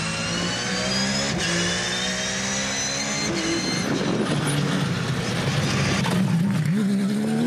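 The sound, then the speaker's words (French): A very low-slung race car accelerates hard out of corners and chicanes, its engine note climbing in pitch again and again with brief dips at gear changes, loud and continuous throughout. “la voiture est très très basse. Et comment ça ressort des virages? C'est un missile!”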